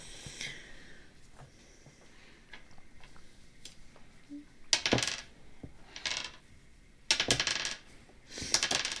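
Dice clatter onto a table during a tabletop role-playing game, with small ticks early on and then several sharp, loud rattling bursts in quick succession in the second half.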